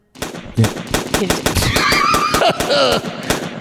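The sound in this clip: Rapid gunfire from a gun that keeps firing on its own, many sharp shots in quick, even succession, loud and unbroken for several seconds.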